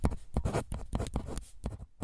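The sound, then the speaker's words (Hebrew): Writing by hand, heard as many quick, scratchy strokes in an uneven rhythm, each a short rasp with small gaps between them, with no voices. “זהו, כתבתי הכל.”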